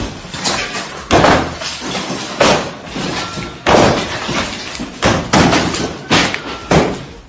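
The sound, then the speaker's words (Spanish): A homeowner smashing up his own house in Melide, with loud, heavy crashes and breaking glass repeated many times at uneven intervals and rattling debris noise between the blows. “un propietario de una casa en Melide pues decide destrozar su vivienda para evitar que los ocupas se metan y la destrocen. Suena así.”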